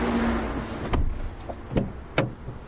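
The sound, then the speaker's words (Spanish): A person getting into a car: a few short clunks and clicks of a door and seat over a low steady rumble, with one sharper click near the end and no voices. “Fuera, Jack se entra en el coche.”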